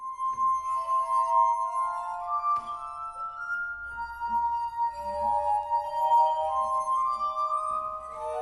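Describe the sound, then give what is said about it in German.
Glass harp music made by rubbing the rims of water-filled glasses: pure, sustained singing tones glide from note to note and overlap in a slow, gentle melody, soft and shimmering throughout. “Hier könnt ihr auch mal hören, wie diese Glasmusik klingt.”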